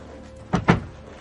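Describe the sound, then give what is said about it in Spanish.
A door is hastily closed, giving two quick, muffled thuds in close succession, moderately soft against a quiet background. “cierra apresuradamente la puerta.”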